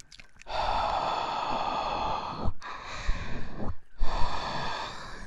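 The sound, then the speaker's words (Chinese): Soft breathy blowing into a listener's ear during an older-sister role-play, three long airy blows separated by brief pauses, gentle and close with no words spoken. “稍微的喘一口气，这耳朵就这么红了，搞得我都不好意思再吹下去了。”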